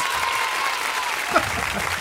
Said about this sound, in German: Glückwunsch an dieser Stelle an Luise. Das hast du sehr ja, gut gemacht. Herzlichen Glückwunsch, Applaus.